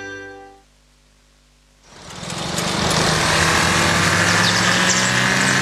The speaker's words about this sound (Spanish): El nuevo Audi Q5, con motor 2.0 TFSI Mild Hybrid, fluye con precisión y eficiencia.